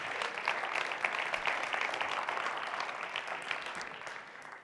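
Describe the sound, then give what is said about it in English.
Applause welcomes a speaker at an event, a sustained patter of many hands clapping at a fairly soft, even level that eases off toward the end. “Let's give him a hand.”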